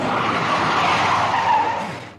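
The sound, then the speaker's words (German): A car braking hard and skidding, its windscreen shattered so the driver cannot see: a loud, sustained tire screech lasting about two seconds that fades out sharply at the end. “Drück doch die Bremse runter”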